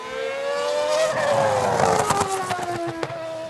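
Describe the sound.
A Formula 1 race car engine screams with a high, whining note that slides steadily lower, then abruptly jumps back up near the end.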